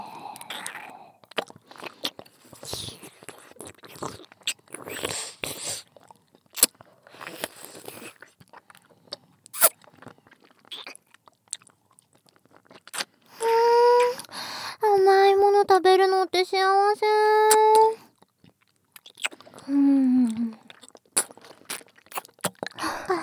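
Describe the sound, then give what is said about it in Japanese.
Candy being chewed and sucked close to the ear gives many irregular wet clicks, smacks and crunches, with a stretch of high, voice-like tones in the middle and again near the end. “食べたい？うちらの唾液たっぷりついたキャンディ”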